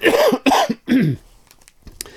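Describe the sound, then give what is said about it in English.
Three loud, rough coughs, each a strong burst with a voiced, hoarse tail, come in quick succession, followed by faint scattered clicks and near silence. “Now, excuse me, I have a cough.”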